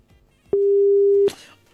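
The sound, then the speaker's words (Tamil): A single telephone busy tone after a dropped call: one steady, mid-pitched beep lasting under a second, with short clicks just before and after it. “Call cut ஆயிடுச்சு உங்களுக்கு. நீங்க கால் பண்ணுங்க அடுத்த வாட்டி.”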